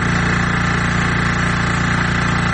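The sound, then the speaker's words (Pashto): A generator engine runs at a clean-water point in Kandahar's twelfth district, making a loud, constant low rumble with fast, regular pulsing and broad hiss throughout. No voices are heard. “له دوو میاشتو وقفې وروسته د جنراتور دا غږ اوري”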